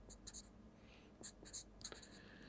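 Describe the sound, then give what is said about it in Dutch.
Faint handwriting, a pen scratching across paper in several quick strokes and short bursts over a steady low background hiss. “Eh, ja, ik schrijf er nog.”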